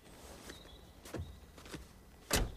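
A woman gets out of her 4x4 on arriving home: a few faint clunks and knocks, like a car door and footsteps, with the loudest thump at the end, over a low background hiss.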